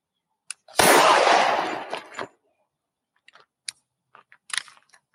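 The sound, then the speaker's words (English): A single loud gunshot bursts out and decays over about a second, followed by a few faint, scattered clicks and taps. “I just fucking shot myself.”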